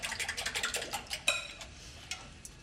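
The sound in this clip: Eggs and a milky mixture being whisked in a bowl: a rapid, rhythmic run of light clinks and scrapes, followed by a sharper knock and a few scattered taps, all fairly quiet.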